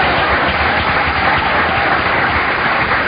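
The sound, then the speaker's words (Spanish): Audience applause at a Spanish-language religious testimony gathering: a dense, steady wash of clapping that holds at an even loudness for the whole short stretch, with no voices standing out. “Dale un aplauso a Cristo.”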